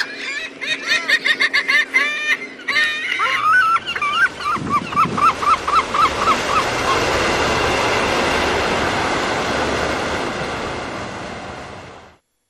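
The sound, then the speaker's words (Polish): Seagulls call over the water in Venice with loud, harsh, quickly repeated cries, including a descending run of calls. The calls give way to a steady, broad rushing noise that fills the second half. “A jak już jesteśmy na wodzie, to nie można przejść obojętnie obok mew, których głosy mogą niektórych śmieszyć, a innych trochę przerażać.”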